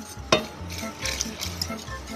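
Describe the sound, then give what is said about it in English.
Whisking a velvety sauce with warm milk in a pot, the whisk working into the corners, gives rhythmic scraping and swishing strokes with one sharper clink near the start, fairly quiet and without voices. “Whisk really well. Get into the corners of the pot.”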